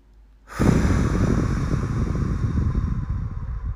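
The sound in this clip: A long, slow exhale out through the mouth during a paced breathing exercise, a loud breathy rush that begins after a quiet moment and holds steadily for several seconds.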